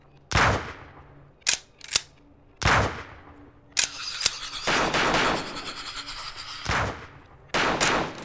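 Video game gunfire aimed at a bug-like creature comes in many loud bursts, with sharp single shots and longer rattling volleys. Each burst leaves a short echoing tail, and the shooting runs almost without a break.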